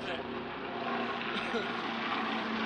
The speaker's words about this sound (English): Oh, hold for plane.